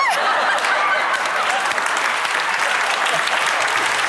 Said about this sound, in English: The moment is he's playing and he's singing, and then all of a sudden the audience sees Stevie and they start applauding